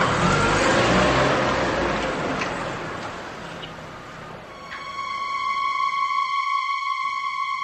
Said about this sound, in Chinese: 安在田发动了车子，车子向寺院开去。